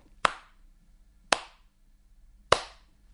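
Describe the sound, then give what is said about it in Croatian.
Three sharp hand claps in a simple, evenly spaced rhythm. Each is a crisp, bright smack that decays quickly into silence. “Smena zvučanja i tišine, naglašenog i nenaglašenog muzičkog doživljaja, označava ritam mog pljeskanja ruku.”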